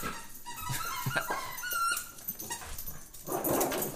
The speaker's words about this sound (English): Can you hear that in the background, people? That's the dog.